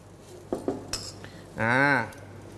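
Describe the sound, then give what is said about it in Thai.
Utensils clink against a pan as chili peppers are added to stir-fried water mimosa: a few sharp metallic taps and scrapes, fairly faint. “ต่อไปใส่พริกจี้ฟ้าตกแต่งสีครับ”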